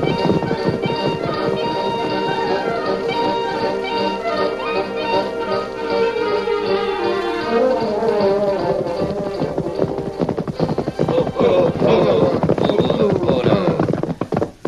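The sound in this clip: A galloping horse named Silver makes rapid, steady clip-clop hoofbeats in a Western setting. Loud orchestral music plays over the hoofbeats, and the hooves grow more prominent and clattering toward the end.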